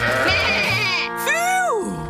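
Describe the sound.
A sheep bleats twice as it is called to the barn on a farm, first with a long, wavering, nasal bleat and then a shorter one that rises and falls, loud and close.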